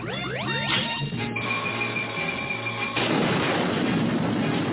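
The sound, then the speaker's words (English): A maser ray weapon fires in a dense, crackling, buzzing blast with sweeping tonal streaks. It stays loud and continuous, then turns into a harsher, noisier roar for the final couple of seconds. “Warm up the maser ray. Fire!”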